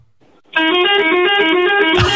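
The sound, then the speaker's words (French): A novelty car horn that sounds like an ice cream van. A loud, buzzy, sustained tone starts abruptly and holds fairly steady for about a second and a half before cutting off. “Et ça t'arrive de klaxonner les gens comme ça, avec celui-là? Bien sûr. Ça fait marchand de glace, tu sais.”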